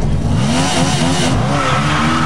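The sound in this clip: A motorcycle revs hard as it turns a full 180 and speeds away from a parade with a police escort, the loud engine roaring continuously while its pitch wavers and climbs.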